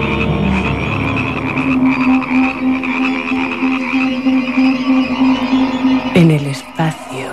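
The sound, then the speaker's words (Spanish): Frogs croak in a dense, loud chorus of rapid, rhythmic pulsing calls layered over one another, continuing throughout with sharper calls near the end. “Y una lluvia de ranas.”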